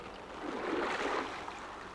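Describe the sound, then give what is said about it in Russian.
Oars dip into the water as a boat is rowed, making a single soft, swelling swish and wash of water that rises and then fades. There are no voices. “Все сели. Весла на воду.”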